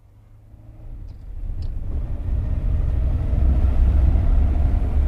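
A car engine rumbles as the vehicle is driven off, a low steady drone that swells over the first couple of seconds and then holds at a fairly loud level.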